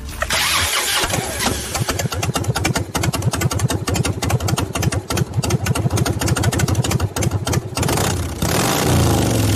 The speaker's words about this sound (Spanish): Harlista muy cercano nos decía alguna vez que este sonido es mágico, terapéutico, y que cuando brota de un motor propio equivale, bueno, a los latidos del corazón de un hijo.